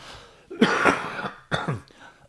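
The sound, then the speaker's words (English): Coughing and throat clearing come in two harsh bursts, a longer rough one followed by a shorter one, with a brief catch at the very end and no speech. “Excuse me. Something in my throat. It's better that I just clear it and don't struggle for these last six.”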